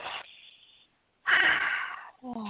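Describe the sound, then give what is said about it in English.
A person takes a deep breath: a short airy rush, a pause of near silence, then a longer, louder breathy rush of air. A voice begins speaking just after. “So I'm going to take a moment. I'm going to take a moment and just take a breath.”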